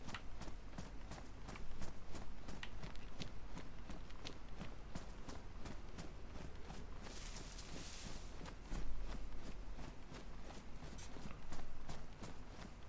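A video game character's footsteps: many rapid, regular steps tapping without pause over a dense, continuous background, with a short burst of hiss partway through.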